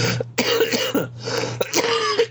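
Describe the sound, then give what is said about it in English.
A series of harsh, rasping coughs comes from someone with congested bronchial tubes, repeated in uneven bursts over a steady low hum. “I got a whole bunch of crap just stuck in my, like, my bronchial tubes. I'm just slowly but surely coughing out.”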